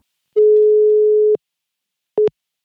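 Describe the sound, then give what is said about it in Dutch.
Telephone tone heard while placing a call: one long, steady pure beep lasting about a second, then a pause and a brief short beep, with no voices. “Laten we haar meteen bellen.”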